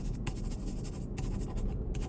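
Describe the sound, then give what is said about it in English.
A pen scratches on notebook paper as a telephone number is written: a few soft strokes separated by short pauses, faint and alone. “Tear out 2 pages. Done. On one of them, write your telephone number and give it to me.”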